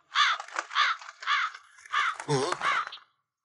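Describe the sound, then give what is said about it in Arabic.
Crows cawing over freshly planted grain seeds: six harsh, raspy caws in a quick, fairly even rhythm, the fifth deeper and rougher than the rest, then abrupt silence. “ابتعدي عن بذوري يا طيور.”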